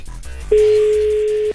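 A ringing tone from a phone call that goes unanswered: after a brief low rumble, a single steady, fairly loud tone holds for about a second before cutting off.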